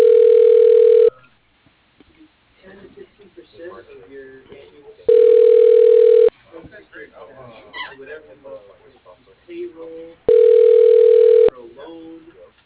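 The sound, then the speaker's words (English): A telephone line gives three long, steady, mid-pitched tones, each about a second long, separated by pauses of several seconds as a number is called. Faint talk and other quiet sounds fill the gaps. “dialing”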